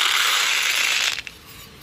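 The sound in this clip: Beads pour onto a surface in a dense, continuous rattling hiss for about a second, then stop abruptly. A single faint click follows as a last bead lands.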